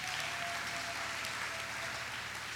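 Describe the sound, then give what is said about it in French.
A church audience applauds with dense, steady clapping that stays loud and even from start to finish, without pauses. “Est-ce qu'on peut acclamer?”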